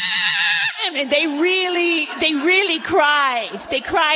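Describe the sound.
A human voice imitates a sheep bleating for help when in trouble. Several quavering, wavering bleats follow one another in uneven rhythm, nasal and fairly loud, with no other sound.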